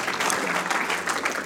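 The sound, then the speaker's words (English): Applause from an audience welcoming a speaker at a Sunday night church service, a dense, steady clapping that stays loud and even throughout. “So why don't you put your hands together and give a great big warm welcome to Mike as he comes.”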